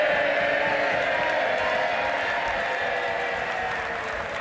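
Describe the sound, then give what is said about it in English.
Loud, sustained applause and cheering fill the House of Commons as an MP who lost limbs to illness and now uses prosthetics returns to Parliament, a steady, dense wash of clapping that holds through the whole stretch. “He's returned to Parliament today and received a rousing reception.”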